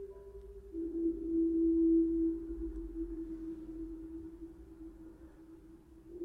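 A slowed-down musical composition with added reverb, heard as one sustained low tone that swells and then slowly fades. It is quiet and smooth, with no talking.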